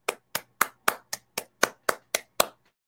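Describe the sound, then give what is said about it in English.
Ten separate hand claps in a slow, evenly spaced rhythm, each crisp and sharp with a quick decay and silence between, sounding like a single person clapping rather than a crowd. “let's applaud because that's awesome.”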